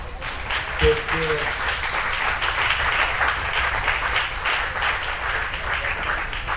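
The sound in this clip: Audience applause at the close of a question session at a talk: dense, steady clapping that holds at an even level throughout, with a brief voice near the start.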